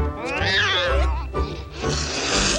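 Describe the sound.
A white cat meows in a loud, drawn-out, wavering cry with a clear, tonal quality, followed by a rougher, breathier stretch; no one speaks.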